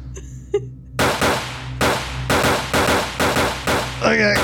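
Gunfire from guns in a video game, weapons that never need reloading. A rapid string of loud, sharp shots with harsh decaying tails follows a quieter opening second.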